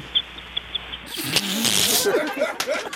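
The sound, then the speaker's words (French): A woman imitates a seagull call with shrill, squeaky cries that rise slightly. The calls sit over a noisy mix of voices after a few faint ticks at the start. “Ah, des beaux oiseaux. Mon Dieu, un goéland, c'était pareil.”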